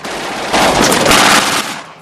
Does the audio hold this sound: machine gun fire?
yes